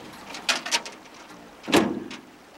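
The driver shuts a van door: a couple of light knocks, then a louder thud, all fairly faint.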